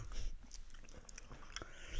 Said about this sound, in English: I haven't yet. I'm still chewing. I'm still chewing, buddy.